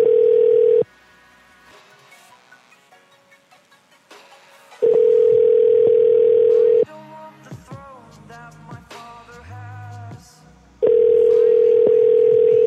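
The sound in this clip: A telephone ringback tone sounds on an outgoing call that goes unanswered with no voicemail. The steady, mid-pitched tone comes in bursts of about two seconds, separated by longer gaps that hold quieter, mixed sounds.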